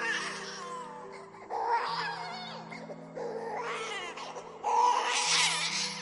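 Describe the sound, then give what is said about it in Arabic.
A newborn baby boy cries just after birth with a doctor present. The high, wavering wails come in about four repeated bursts that grow louder toward the end, over a low sustained drone. “قطع صوت عياط البيبي.”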